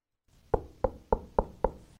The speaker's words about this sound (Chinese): 响呢个时候，突然间有人敲门啊！